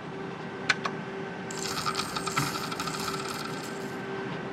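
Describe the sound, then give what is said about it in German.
A casino slot machine pays out credit after the cash-out button is pressed. A couple of sharp metallic clinks give way to a dense, bright jingle of coin-like chimes over a steady electronic hum. “Jetzt möchte ich mich gerne noch mal ein bisschen umschauen im Rest des Automaten-Casinos. Das heißt, ich nehme jetzt meinen Kredit mit. Dafür drücke ich auf Auszahlen.”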